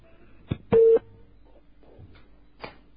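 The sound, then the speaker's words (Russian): A single short, steady telephone beep signals an incoming call. The tone is brief and clear against a quiet line, with a few faint clicks and soft murmurs around it. “Входящий звонок.”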